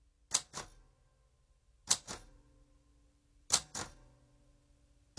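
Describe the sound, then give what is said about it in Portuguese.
Slow typewriter keystrokes, one letter at a time: sharp mechanical clacks come in pairs, three pairs separated by long pauses, with another strike at the very end. “O rapaz que bate à máquina, uma letra de cada vez, é empregado de mesa. Àquela velocidade, nem amanhã tem o comunicado pronto, pensa Maria Armanda.”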